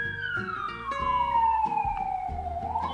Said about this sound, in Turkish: Arkadan siren sesini duyuyorsunuz. Siren sesi bittiği anda giriyorum.